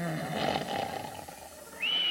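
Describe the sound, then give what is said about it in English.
An elderly grandfather snoring while asleep on a couch: a loud, rasping, rumbling snore that fades, followed by a steady high whistle near the end. “Oh, my, my, there's Grandpa snoring again.”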